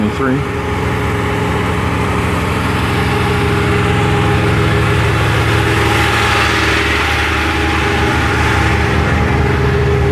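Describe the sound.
A truck engine idles with a steady, low rumbling hum and a constant drone that holds evenly throughout.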